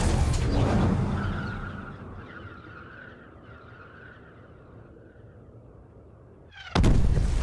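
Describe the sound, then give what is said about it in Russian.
A bomb falls and explodes in a fortress courtyard. A loud, rumbling blast at the start fades into a long, steady whistling tone, then a sudden heavy burst of noise cuts in near the end. “Посреди двора падает бомба и разверзается ад. Взрывной волной качнуло стены. Все взлетело на воздух.”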